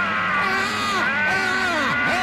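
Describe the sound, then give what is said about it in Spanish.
Two people shout loudly together, letting out long, strained cries of outrage whose pitch wavers and bends, overlapping at a strong, steady level with no pause. “Vamos a gritar los dos para desahogarnos por esa injusticia. ¡Gritemos!”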